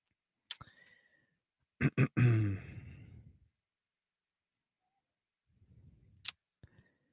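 Sharp computer mouse clicks as someone clicks a channel subscription to open a video, a few crisp isolated snaps spread out with quiet gaps between them.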